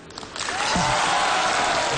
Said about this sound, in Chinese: 谢谢，谢谢大家这么热烈的掌声。当然了，掌声再热一点就更好